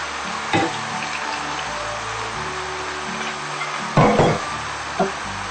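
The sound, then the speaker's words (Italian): Country vegetables that still hold some water frying in oil: a steady sizzling hiss throughout, broken by a few louder pops or clatters. “le nostre verdure di campagna, che hanno ancora un po' d'acqua dentro, dunque quest'acqua andrà a raffreddare l'olio e dunque non la farà riscaldare troppo.”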